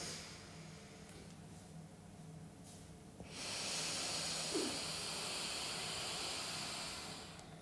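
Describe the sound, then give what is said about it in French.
A long, steady exhale is breathed out during a guided breathing exercise. After a quiet start it becomes a loud, airy hiss that lasts about four seconds before easing off. “aller jusqu'au bout de l'expire.”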